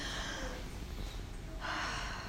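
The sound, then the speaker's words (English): Breathing from a group of people inhaling together at a gathering before a prayer reading, a soft airy rush that swells brighter and louder near the end. “So if we all just take a breath.”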